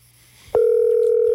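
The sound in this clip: Telephone ringing tone while calling someone: after a faint low hum, a loud steady tone starts abruptly and holds unbroken to the end.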